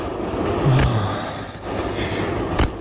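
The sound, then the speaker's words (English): Steady low rumble and rattle from inside a moving passenger train, continuous and fairly loud, with two brief dull thuds standing out above the drone. “A pity there are none on this train now.”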